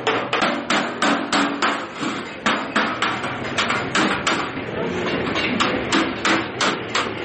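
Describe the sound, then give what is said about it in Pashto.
Many rapid, even hammer blows ring on metal in a blacksmith's shop in a Kandahar city bazaar where axes, shovels, stoves and other metal goods are forged. The sharp strikes come in a steady rhythm with brief pauses, with no talk. “د اهنګري په یوه دکان کې سهار تر ماښامه څټک پلاس، بخاري او نور فلزي توکي جوړوي.”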